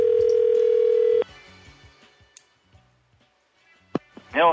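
A landline dial tone holds steady and loud for just over a second, then cuts off into near silence broken by a few faint clicks, ending with a short sharp tick and a bright warbling electronic chirp.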